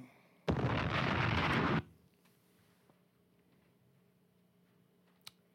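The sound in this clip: Bomb explosion sound effect: a loud, broad blast that holds for just over a second and then cuts to a quiet tail, with a small faint click a few seconds later.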